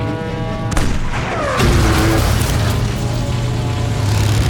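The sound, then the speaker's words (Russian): Tank cannon fire in a war film battle scene: a couple of heavy booming blasts, the later one deeper, followed by a sustained loud rumble with no voices. “Пушка стреляет. Танк подбит. Наши. Боец досылает снаряд, закрывает казённик. Лейтенант командует. Огонь!”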